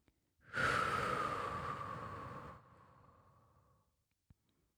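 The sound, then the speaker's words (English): A long, deep exhale during a guided grounding meditation, a steady breathy rush lasting about three seconds that gradually softens and fades out, heard alone without talk. “Let's breathe that out.”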